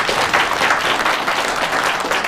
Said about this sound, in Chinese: 有掌声。